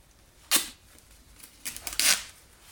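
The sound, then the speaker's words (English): Duct tape being cut for sticking onto a glove: a short, crisp rasp, then after a pause a longer cluster of sharp ripping bursts, all fairly faint against a quiet background. “I accidentally messed up a piece of duct tape. Now we have to cut another.”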